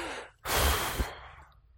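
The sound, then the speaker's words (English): A deep breath taken together by a group: after a short pause, one long soft rush of air swells up and then slowly fades over about a second. “let's just take a breath together, shall we? Everybody take a deep breath.”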